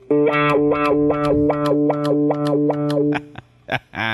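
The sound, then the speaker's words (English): Distorted electric guitar chord through a filter pedal like a wah-wah, swept open and shut in rapid, even pulses for about three seconds before cutting off into a few short, scattered sounds. “the next thing is a filter pedal, which is like a wah-wah pedal.”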